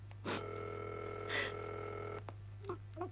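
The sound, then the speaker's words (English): Telephone dialing and ringing a number, heard as a faint, steady electronic tone with two brief louder bursts, followed by a few soft clicks. “We are ringing Ordway 3787 for you, caller.”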